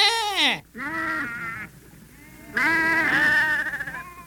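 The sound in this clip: A human voice imitates the sheep of a flock of a hundred bleating, with three drawn-out nasal calls. The first slides down in pitch and the last is long and quavering, loud and alone.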